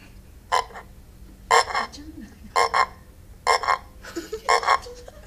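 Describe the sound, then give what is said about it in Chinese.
Frog croaks come in a series of short, rasping bursts, mostly paired, spaced roughly a second apart over a low, steady background hum. “还有 青蛙叫。 青蛙。再来一次啊。”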